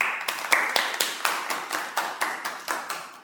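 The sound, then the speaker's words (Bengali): Audience clapping at a music event, an ovation for the musicians: many claps in a steady, regular rhythm, fairly faint and evenly spaced from start to finish. “দুজনের জন্য সবার জন্য একটা জোরে হাততালি হোক।”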